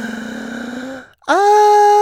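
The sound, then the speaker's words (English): A voice makes a deliberate, voiced gasping 'ah' to imitate nervous, stressed breathing: a steady tone, a brief silent break, then a sharper, louder sustained gasp. “That's how I breathe when I'm nervous. That's how I breathe when I'm stressed.”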